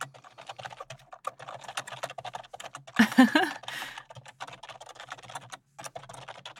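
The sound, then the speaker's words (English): Loud typing on a computer keyboard makes a steady patter of many clacking keystrokes. A brief, louder burst of clatter comes midway. “Yes, I type loudly. Sorry.”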